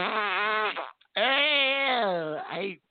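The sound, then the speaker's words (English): A fart from someone with an upset stomach: two long, buzzy, droning blasts with wavering pitch, the second longer, separated by a short gap and fairly loud. “I think I got the fart. I think I got a fart going in about myself.”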